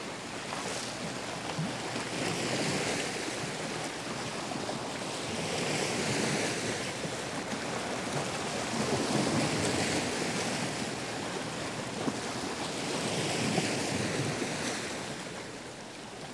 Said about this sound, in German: Ocean Sounds heißt das Stück, das Sie hier im Hintergrund hören.